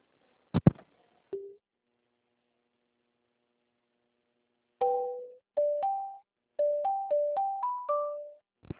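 Electronic telephone tones play while a call is being transferred: a click and one brief tone, then after a pause a run of short beeps stepping up and down in pitch, steady and clear with no talk.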